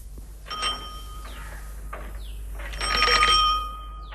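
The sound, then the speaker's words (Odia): A postman's bicycle bell rings a few times, bright metallic dings with a longer, louder burst of ringing near the end, over a faint low hum. “କିଏ cycle ଘଣ୍ଟି ବଜେଇ ଗଲା କି ବୋଉ? ଡାକ peon.”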